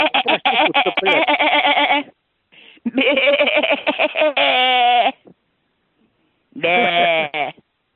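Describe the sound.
Goat bleating comes in a few loud, harsh, quavering calls with wavering pitch, separated by pauses of silence, including one very short bleat between the longer ones.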